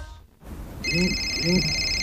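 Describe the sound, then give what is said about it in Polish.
An electronic telephone ringtone from a home phone, steady high bright tones that start after a brief pause and hold to the end, with a warbling lower tone beneath. “O, telefon z przychodni. To pewnie nasza teleporada. Kochanie, odbierzesz?”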